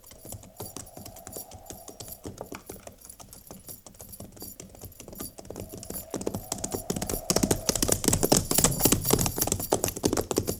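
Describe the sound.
Horses of a cavalry company clip-clopping as soldiers ride, a fast, dense patter of many hoofbeats that grows louder and busier toward the end.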